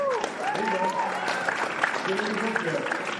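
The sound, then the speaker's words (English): A short burst of audience applause, a dense steady patter of clapping with people talking over it. “I'm very grateful for that little burst of applause.”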